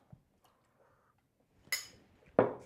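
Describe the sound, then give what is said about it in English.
A utensil clinks against glass while a cocktail made with a quarter ounce of dried herb is stirred. Two sharp clinks ring out, the second louder, over faint soft rustling and near quiet. “And we're just gonna stir”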